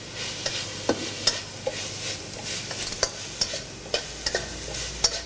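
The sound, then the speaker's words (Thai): Holy basil sizzles as it is stir-fried with dried chili and red and green chilies in a pan. A steady hiss runs throughout, broken by many sharp clicks and scrapes of a utensil against the pan. “ใช้เวลาผัดอีกเล็กน้อยนะครับเราก็จะได้กะเพราพริกแห้งกะเพราโบราณของเรานะครับ”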